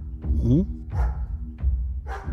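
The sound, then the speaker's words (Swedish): Dog barking behind a closed door, a few separate barks with pauses between them, fairly steady in loudness. “När du knackar där så hör du någonting som låter som en hund som skäller.”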